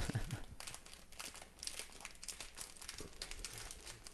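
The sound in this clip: A holiday gift sealed with tape is torn open, giving a faint, continuous crinkling and crackling of wrapping paper with occasional sharper rips.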